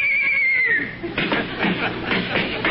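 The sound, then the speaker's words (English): Horse whinny from a horse lying in a house hallway near a trophy room: a brief, shrill neigh with a falling pitch, followed by laughter. “Fine place for a horse to sleep. I can't understand why.”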